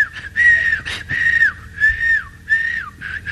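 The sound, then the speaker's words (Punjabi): A person whistles a tune, loud and alone, in several short repeated phrases that each end with a quick downward slide in pitch. “ਕਹਿੰਦਾ ਆ ਗਈ, ਬੜਾ ਖੁਸ਼, ਲਓ ਜੀ ਘਰ ਸੀਟੀਆਂ ਮਾਰਦਾ ਜਾਵੇ।”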